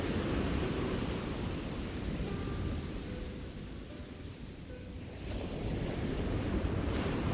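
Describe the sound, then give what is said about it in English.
Ocean waves surge, churn and flow back out to sea as a steady, rushing wash that eases midway, then swells again. “surging and churning of water. In the moment of silence, as each wave flows out again to rejoin the sea,”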